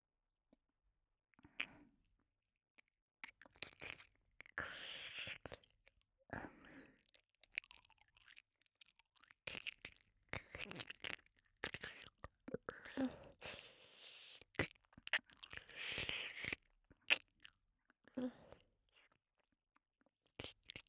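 Someone eats, crunching and chewing in many short, irregular, faint bursts separated by brief pauses.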